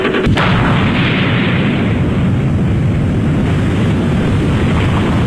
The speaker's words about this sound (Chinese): 1964年10月16日，我国第一颗原子弹爆炸成功。